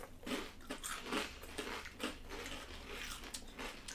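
Crisp crunching as buffalo-flavored Ruffles potato chips are bitten and chewed, with a few sharp, loud crunches over steady chewing noise and no talking.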